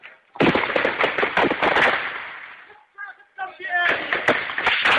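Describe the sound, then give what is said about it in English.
Gunshots fired at a street protest in a district of Damascus, Syria, recorded on an amateur phone video: many sharp cracks over loud, chaotic crowd noise and shouting voices, with a brief lull in the middle before the din returns. “Protesters flee the shots, apparently unharmed.”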